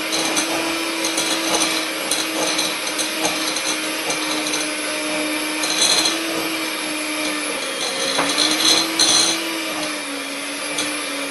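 An electric mixer runs on low speed through a thick apple batter, giving a steady droning motor whine with a slight wobble in pitch and a few louder, rougher patches as the beaters work the dense mix.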